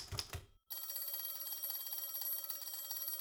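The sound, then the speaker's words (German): A telephone bell rings in a continuous, shrill, buzzing trill that starts after a short quiet gap and keeps going steadily to the end. A brief, muffled sound comes before it. “Das Telefon schwirrte.”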